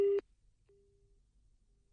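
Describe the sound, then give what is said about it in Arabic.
A telephone busy signal after a cut-off line: one loud, brief tone, then a much fainter, thinner tone that holds for about half a second before near silence. “إذا انقطع الخط الهاتفي مع السيد كريم جبران، سنحاول اتصال به من جديد.”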